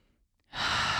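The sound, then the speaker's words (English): A deep breath drawn in during a guided vocal toning exercise: near-silence gives way to a sudden loud airy rush that holds steady to the end of the short clip. “Take a deep breath with me.”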